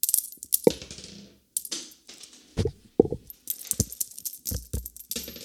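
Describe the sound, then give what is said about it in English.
Pennies dropped and scattered, giving many bright metallic clinks and rattling impacts in irregular bursts, with a short pause near the start before the coins keep tumbling and settling. “Sorry, I dropped all my pennies here.”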